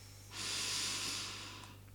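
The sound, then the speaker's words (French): One long, deep breath makes a steady, airy hiss that swells and then slowly fades. It is faint, with a low, constant hum underneath and no talking. “Prenez une profonde respiration.”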